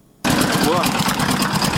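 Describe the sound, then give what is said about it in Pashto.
An old sixteen-horsepower electric generator runs in a district without mains power. Its loud, dense mechanical drone and rattle cut in abruptly and continue steadily without pause. “دا رپورټ یې راستولی چې په سیمه کې د یو جرناتور په غږ پیلېږي.”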